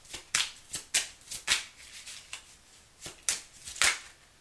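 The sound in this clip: Tarot cards being shuffled and drawn: a quick series of crisp, papery flicks and snaps at an uneven rhythm, fairly soft overall with several sharper slaps standing out.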